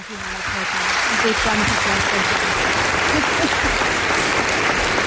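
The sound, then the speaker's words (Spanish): Studio audience applause swelling quickly into dense, steady clapping that holds at a loud, even level for several seconds, with a voice briefly audible at the start. “Os pido un aplauso para ella.”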